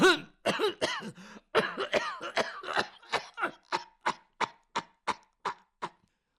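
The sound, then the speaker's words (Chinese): A voice imitates an old woman coughing: a long run of coughs, the first few rough and throaty, then many short, evenly spaced hacks that grow gradually fainter and end in silence. “老太太说到这里就开始咳嗽”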